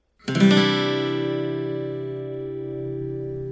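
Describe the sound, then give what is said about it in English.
An acoustic guitar plays a C add 9 open chord with one strum that rings out loud and sustained for about three seconds. It fades only slightly and sounds alone. “First, let's look at a new chord, C add 9. Place your middle finger on the 3rd fret of the 5th string.”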